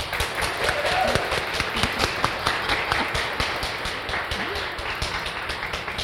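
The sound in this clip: Audience applause welcoming a speaker at an Offline event: many quick, overlapping claps forming a steady, lively patter that carries on throughout.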